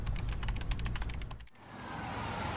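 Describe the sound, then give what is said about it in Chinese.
Rapid typing on a computer keyboard, a busy patter of light clicking keystrokes that stops partway through, leaving a soft steady hiss. “他转身坐回座位，又开始永无止境地敲击键盘。”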